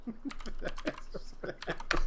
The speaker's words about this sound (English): Hold on, let me type back.